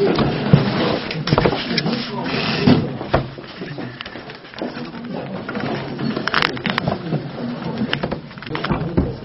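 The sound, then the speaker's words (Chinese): A chair is brought over and set down, with a few wooden scrapes and knocking clunks scattered among people talking throughout. “加一个椅子吧。坐过来。”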